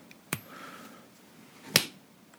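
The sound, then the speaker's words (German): A coin tossed for a heads-or-tails call: a sharp flick, a brief faint ringing tone, then a second, louder sharp click, with no voices. “werfen also wieder die Münze und wessen Seite oben liegt”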